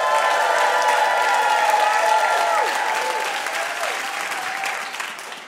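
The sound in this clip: Audience applause and cheering for a stand-up comedian as she is introduced: loud, dense clapping with whoops rising over it, sustained for several seconds before gradually tapering off.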